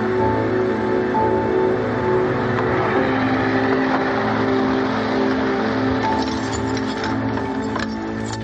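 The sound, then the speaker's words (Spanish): Steady car engine drone as a car carries a wounded man home, a low, even rumble with a constant hum that stays loud and unbroken for the whole stretch, no voices. “Montan a Tom en un coche y lo llevan a casa.”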